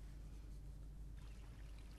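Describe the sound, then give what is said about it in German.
A river flows beneath a bridge as a steady, faint, broad rush of water that stays even from start to finish with no voices. “Es ist sehr romantisch mit dem rauschenden Fluss unter uns.”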